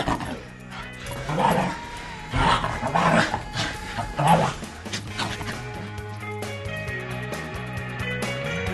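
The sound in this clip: A West Highland White Terrier named Nick vocalizes in a drawn-out, wavering howl with rising and falling yips and whines that swell in a few loud bursts over a steady background.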